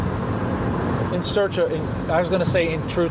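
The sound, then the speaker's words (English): Constant low rumble and road hiss fill the inside of a moving car, a steady drone running beneath a person speaking close by. “First of all, sorry about the background noise. I'm in my car.”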